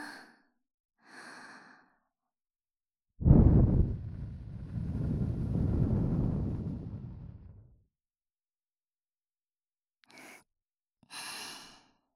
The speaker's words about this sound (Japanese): 気持ちよさそう。耳吹かれるの好きなんだ。